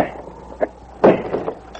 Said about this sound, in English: Then he opened the door and walked in. The kitchen door opened and...